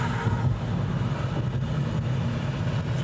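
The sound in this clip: Steady, loud, low rumble of engine and road noise inside a car while driving, continuous and unbroken, with no talk.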